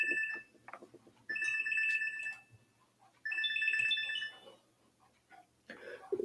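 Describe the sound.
A telephone rings with a bright, warbling electronic ringtone: a short fragment at the start, then two longer, loud bursts separated by a pause. Faint background noises fill the gaps between rings.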